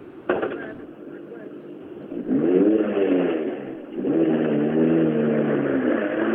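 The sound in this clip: A rally car of the R2 class arrives at the finish of a rally stage, its engine revving loudly and steadily for several seconds, the pitch rising and falling as it comes in.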